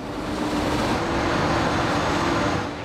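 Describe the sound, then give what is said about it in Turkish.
Steady, loud rumbling roar of a small work train travelling deep into a mountain along the Gotthard rail tunnel construction route toward a tunnel boring machine, continuous and even throughout with no distinct separate events. “Küçük tren onları dağın 13 kilometre içine, hala çalışmakta olan Gabi 1 adlı delme makinesinin bulunduğu yere taşıyor.”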